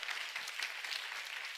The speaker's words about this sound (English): George Acevedo grew up in this church, and he is an incredible influence in our nation. Yeah, put your hands together and welcome him.